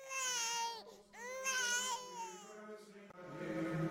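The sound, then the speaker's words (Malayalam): An infant cries indoors in a couple of long, wavering wails with clear, high-pitched tone and loud, strained swells, then a brief rougher sound at the end. “പോയ കാലം അമ്മ ഓർത്തെടുക്കുമ്പോൾ അകത്തുനിന്ന് കുഞ്ഞിന്റെ കരച്ചിൽ.”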